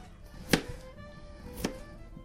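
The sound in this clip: Two sharp knife chops while potatoes are prepared for cooking, about a second apart, each a crisp, fairly loud hit over a quiet background.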